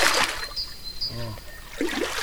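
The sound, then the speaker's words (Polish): Water splashes and swishes as a branch stirs it in a clay-soil pit in a forest. A burst of swishing at the start and another near the end frame a brief voiced sound. “Ja Państwu teraz udowodnię, że naprawdę w tym dole stoi woda. Przygotowałem wcześniej gałąź, teraz tutaj zamieszam.”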